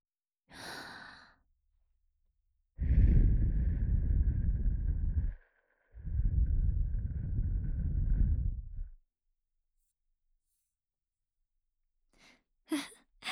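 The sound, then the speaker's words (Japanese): Soft, breathy blowing into the right ear after an ear cleaning: one brief puff, then two long, steady gentle exhalations separated by a short pause, followed by a faint trailing breath. “不意打ちじゃ。お耳かきはお耳ふうって終わるのがお約束だからの。”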